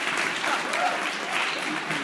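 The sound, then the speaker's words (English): Applause effect: a steady, dense wash of clapping that runs evenly through the whole moment at moderate level, with no voices over it. “I hate to break it to you, but I think my applause is a bit loud.”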